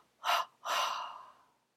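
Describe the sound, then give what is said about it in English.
A short sharp intake of breath is followed by a longer, fuller breath pushed out through the mouth, soft and airy during a guided meditation. “we are going to take a deep breath and then exhale three times through the breath, through the mouth.”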